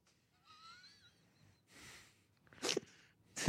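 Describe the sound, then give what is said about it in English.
A tall man gives a restrained sneeze: a faint, wheezy intake of breath with a thin whistle, then a short, sharp burst of air and a second brief puff at the end. “What a demure sneeze you have for such a large, tall man.”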